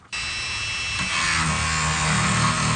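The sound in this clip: A power tool cuts into 30,000-year-old bone for a Yukon paleontologist. After a brief quiet moment it starts abruptly as a steady, high, buzzing whine rich in overtones, holding on and growing slightly louder.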